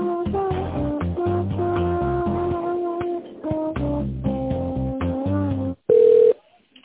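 A telephone tone is heard while an office call is being transferred. Music plays first, then it stops and a single short, loud, steady beep sounds before the line goes quiet.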